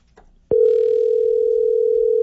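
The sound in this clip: A telephone dial tone plays while a call is placed to a contest winner: one steady, unbroken tone begins abruptly after a brief quiet moment and holds loud and level through to the end, with no voices over it.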